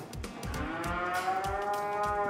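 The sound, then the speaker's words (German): Cattle mooing in a cowshed: one long, drawn-out, loud moo that holds steady through the whole clip, with no talk. “Schleswig-Holstein ist heute im Kuhstall mächtig was los.”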